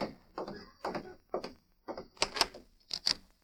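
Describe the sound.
A door being opened, heard as a run of sharp wooden clunks and rattling knocks, many short thuds in quick succession.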